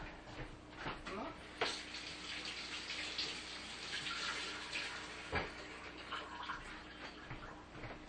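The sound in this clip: Tap water running steadily while items are rinsed off at a sink, a faint, even hiss with a few soft splashes and knocks.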